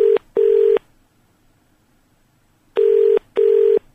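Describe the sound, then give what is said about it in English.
A telephone keypad gives four loud, clean touch-tone beeps in two quick pairs, with about two seconds of quiet between the pairs. “if I do that, and then dial. There we go. Oh, no, I've dialed reception, I think.”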